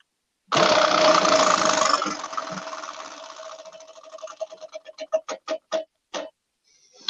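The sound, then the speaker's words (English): A prize wheel spins with a loud rattle of clicks that blur together, then slows into distinct ticks spaced farther and farther apart until it stops. “let's get to spinning this wheel and figure out which movie we're going to be watching next week.”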